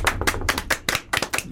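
An audience claps for a guest's arrival in a brisk run of about seven quick, uneven bursts of hand claps. The claps are fairly loud and carry no voices over them.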